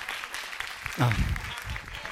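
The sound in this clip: Faint audience applause, a soft, steady patter of clapping throughout, with a brief voice cutting in near the middle.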